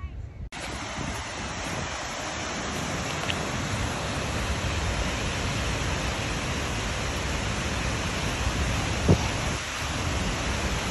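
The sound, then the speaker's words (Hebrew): A waterfall in Iceland roars as a steady, dense rush of water that stays loud and unbroken throughout, mixed with wind. “תכף תראו את המפל”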